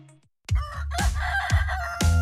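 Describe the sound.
A rooster crows loudly and alone, a long, strained, harmonic call broken into several pulsing syllables after a brief quiet start.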